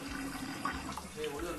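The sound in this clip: Water runs from a tap in a steady, continuous hissing splash at a low level.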